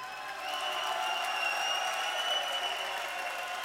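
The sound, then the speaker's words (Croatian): Audience applause invited by a performer, soft and steady clapping that swells in just after the start and then holds at an even level. “Zamolit ću vas sada za jedan spontani aplauz.”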